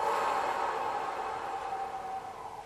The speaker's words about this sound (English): that is a whooshing noise. If you can hear the noise and it sounds sort of like a whoosh, you did it, okay?